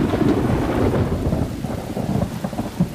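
A thunderstorm with pouring rain: a steady, loud wash of rain hiss over deep rumbling thunder, holding its intensity throughout with no voices.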